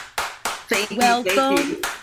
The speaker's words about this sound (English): Put your hands together for Pilar, La Problema, y La Solución.